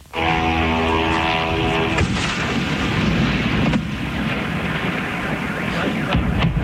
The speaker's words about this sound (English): This was the sound of one drone flying into a Moscow oil refinery.